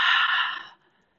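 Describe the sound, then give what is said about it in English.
A single long, breathy exhale during a guided breathing exercise, soft and airy, fading out after most of a second into near silence. “Take another breath in and let it go.”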